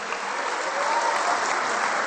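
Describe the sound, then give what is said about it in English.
Applause at a church gathering, a thick, unbroken roar of many hands clapping, loud and steady from start to finish and swelling slightly partway through, with no talking. “Come on, let's give him a round of applause.”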